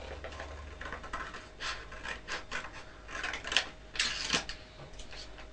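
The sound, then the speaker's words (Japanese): A saw cutting along a drawn red line makes quiet, uneven rasping strokes, many short scrapes that grow a little louder toward the end, with no talking. “でもここギーって切ってごらん。赤い線のようにずーっと切るんだよ。”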